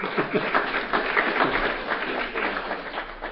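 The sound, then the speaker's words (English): Audience applause after a presentation on crop research: dense, moderately loud clapping that swells and eases slightly over a few seconds. “And he wanted me to get you guys to give me a round of applause for making his presentation.”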